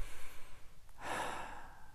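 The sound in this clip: A slow, deep breath, soft and airy and fairly faint, drawn out over about a second with no speech.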